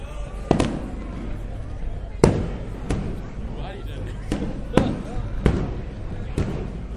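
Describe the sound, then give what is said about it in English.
Fireworks explode in several sharp, loud bangs at irregular intervals, some in quick pairs, while people talk throughout. “Well, there it is, guys. There's the fireworks.”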